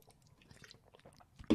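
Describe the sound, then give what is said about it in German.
A person taking a drink: quiet, wet mouth clicks and small gulping sounds, ending in a sudden, much louder burst. “Jetzt muss ich mal was trinken.”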